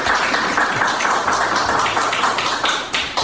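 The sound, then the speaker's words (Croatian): Audience applause at a wind festival event in Kotor: a sustained patter of many hands clapping at an even level, with a few sharper claps standing out near the end. “Tako da bih jedan aplauz za to što smo postali dio ovog festivala.”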